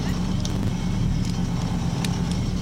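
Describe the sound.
Engine drone of a small BMW 2002 rally car at a rally stage, a steady, loud, low rumble with no break for the whole short stretch.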